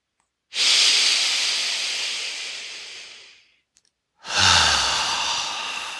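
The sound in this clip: Forceful breaths during a guided breathing exercise: two long, loud, hissing rushes of air, the first lasting about three seconds and fading away, the second beginning after a short silence.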